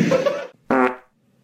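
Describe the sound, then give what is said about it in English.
A fart sound in two loud bursts, a longer rumbling one followed after a short pause by a shorter one with a sharp start, with no talk over it. “Holy crap fart.”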